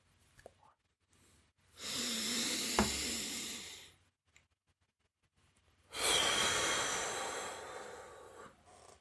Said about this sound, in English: let's take one good deep breath together